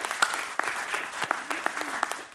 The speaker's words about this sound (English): Yeah, give it up for him.